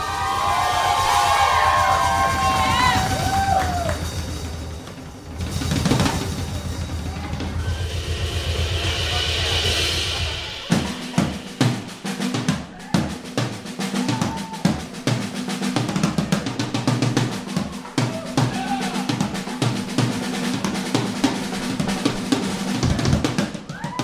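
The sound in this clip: A drum solo on a drum kit at a live comedy show. Crowd noise with some cheering fills the first ten seconds, then the drums take over with rapid, loud, irregular hits and fills to the end.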